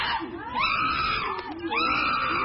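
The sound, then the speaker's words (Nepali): Chimpanzees, a male and a female, scream excitedly while eating fruit and vegetables in their enclosure. The loud, shrill, continuous calls rise and fall in repeated arcs of pitch. “चम्पा र चिम्पुले आआफ्नो भाग लिएर खान थाले। केही बेरमै उनीहरू उत्साहित हुँदै कराउन थाले।”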